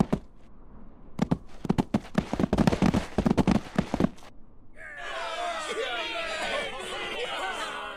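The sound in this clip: Gunshots as people shoot each other in the legs: a rapid, loud volley of bangs, followed by overlapping shouting and yelling voices.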